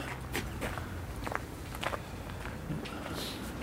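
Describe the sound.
Footsteps walk into a cemetery, a string of soft, crunching steps at an uneven pace, faint but distinct against quiet background noise.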